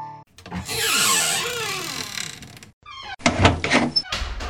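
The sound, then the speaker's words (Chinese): A front door is shut and locked: a long, wavering creak swells and fades, then a short burst of rattling and clattering ends in a firm thump. “而张家父子回家之后呢，赶紧把大门锁好，”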